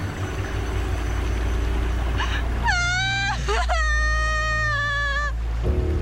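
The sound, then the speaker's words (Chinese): Frightened wailing from a person told not to move near buried landmines: two long, high, sustained moaning cries with a short break between them, over a steady low hum. “你别哭，别哭。你别害怕，你别哭啊！”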